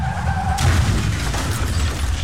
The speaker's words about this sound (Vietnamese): Đi thẳng, gặp tai nạn nguy hiểm tính mạng.